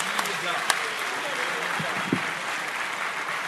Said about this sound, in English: Give everybody a hand.